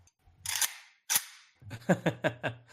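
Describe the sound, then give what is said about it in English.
Metallic clacks of guns being racked and handled: two harsh bursts, then a quick run of several sharp, crisp clicks. “sounds of guns being wrecked. Yes, sounds of guns being wrecked.”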